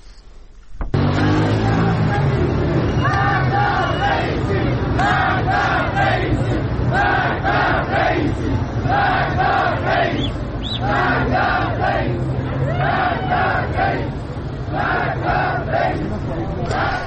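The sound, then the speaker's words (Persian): Crowd chanting at street protests in Iran: a loud, continuous mass of voices repeating a rhythmic chant throughout, with no pause. “البته فایل صدایی که شنیدید در ارتباط با اعتراضات در ایران هست”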